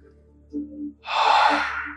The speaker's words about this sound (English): Inhale, let go.